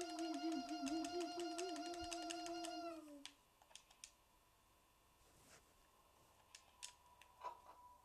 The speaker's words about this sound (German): Erstmal als Entspannung auf Freddy die Nase drücken.